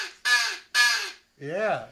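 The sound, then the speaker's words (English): A person imitates a crow's caw: two loud, raspy, noisy caws in quick succession, then a lower, smoother voiced call with a wavering pitch. “Even their calls are different. The sound is different, too. That's right. Caw, caw versus... Crow.”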